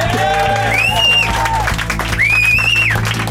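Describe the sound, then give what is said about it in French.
Studio audience applause with cheering from a late-night talk show, a short burst of clapping mixed with loud whoops and shouts. “Mais mon Dieu, ça a arrêté d'applaudir vite.”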